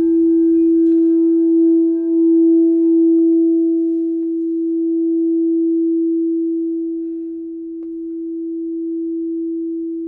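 A crystal sound bowl struck and then rimmed rings with a pure, steady tone that sustains for about ten seconds, swelling and dipping gently in loudness, with brief strike noise only at the very start.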